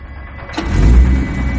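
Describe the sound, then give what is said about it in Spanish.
A car pulls away from a factory area onto a nearly empty highway. A low engine rumble swells in after about half a second, grows louder, then holds as a steady drone. “Se marchan de la zona de la fábrica y a continuación circulan por una autopista sin apenas tráfico.”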